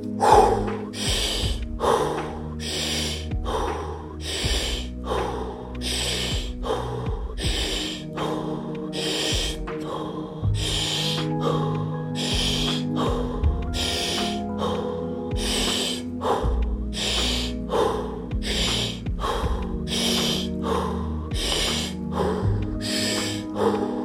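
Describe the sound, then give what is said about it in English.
Deep rhythmic breathing during the final 30-breath round of a breathwork session: many forceful, loud inhale-exhale cycles in a steady, even rhythm, one after another throughout. “Here we go, last round. 30 breaths.”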